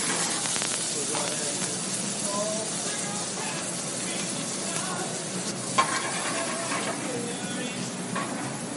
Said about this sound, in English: We'll go ahead and start the egg.